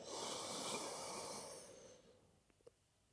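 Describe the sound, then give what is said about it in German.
A slow, audible breath during a guided calm-breathing exercise: one long, airy rush of about two seconds that gradually fades away, followed by a couple of faint small clicks. “alles, was du dafür tun musst, ist einatmen”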